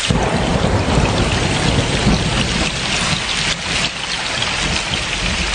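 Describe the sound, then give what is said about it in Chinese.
Heavy rain pours in a steady, loud roar through a thunderstorm, with deep low rumbling of thunder beneath the downpour and no clear break. “爸爸，你看，打闪了。 快捂住耳朵，马上就要打雷”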